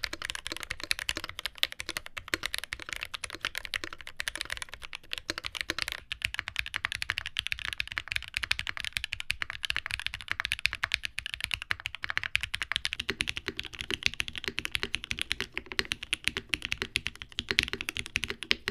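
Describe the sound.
Fast, continuous typing on a Freebird TKL mechanical keyboard with an untaped PCB, many keystrokes clacking in quick, uneven runs with no talk.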